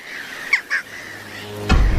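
Birds calling at an island breeding colony, two brief, fairly faint squawking calls in quick succession over a soft steady background, without voices.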